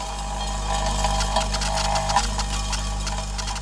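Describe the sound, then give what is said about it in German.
Steady mechanical hum and whir from a Fraunhofer prototype machine sorting mixed building materials from demolition, a constant droning tone with a low rumble underneath and slight fluctuations throughout, with no voices. “Diese Maschine der Fraunhofer Gesellschaft könnte dafür die wichtigste Voraussetzung liefern, nämlich die zahlreichen Baumaterialien zu sortieren, die bei einem Abbruch anfallen.”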